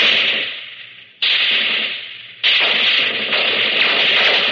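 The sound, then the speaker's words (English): A World War II Bren light automatic gun fires in three long, loud bursts, each a dense rattling roar that trails off slightly before the next volley starts abruptly. “First, the Bren gun. It's a small automatic weapon made at low cost but very effective.”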